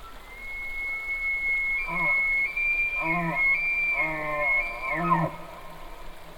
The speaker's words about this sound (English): The strange shrieking and whistling and bugling of bull elk.